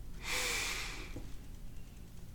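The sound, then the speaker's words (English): A deep breath drawn in sharply, one long, loud, airy inhalation during a spiritual relaxation exercise, followed by near silence. “Take a deep breath in, fill up,”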